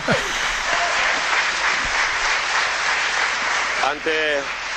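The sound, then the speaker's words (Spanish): Applause fills a town council plenary meeting: dense, steady clapping from a crowd that holds at an even level throughout, with a voice briefly heard near the end. “un aplauso como creo que no se haya producido nunca en un pleno del ayuntamiento.”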